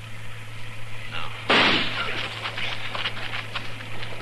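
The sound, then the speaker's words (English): A single gunshot fired at a tree in a radio drama: one sharp, loud burst followed by a decaying, crackling tail over a steady low hum. “I'm going to flip a shot at the tree, Chester. Roll away as soon as I fire.”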